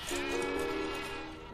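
A single sheep bleats in one sustained, wavering, nasal tone. The call is fairly faint and trails off gradually.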